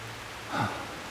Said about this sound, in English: Whoa, the rain's coming down now.